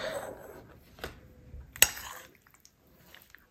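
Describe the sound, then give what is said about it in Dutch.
Faint scraping and clinking of a utensil stirring pasta with garlic and Italian herbs in a pot, a soft continuous rustle with one sharper metallic clink midway, quiet and without talk. “ik ga nu even roeren”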